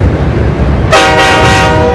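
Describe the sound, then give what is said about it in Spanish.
An approaching train rumbles steadily, then its horn blasts loudly about halfway through and holds as a bright, sustained chord over the rolling noise to the end. “Se acerca un tren.”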